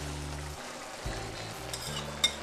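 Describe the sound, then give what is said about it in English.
Mushrooms sizzle softly in a pan that already holds paprika and pepper as they are stirred. The frying stays faint and steady, with a brief sharp tap near the end. “And give it a good stir, and now my mushrooms.”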